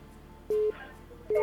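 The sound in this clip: Telephone line tones sound as a radio call-in connects: two short, steady electronic beeps at the same pitch, separated by a brief pause.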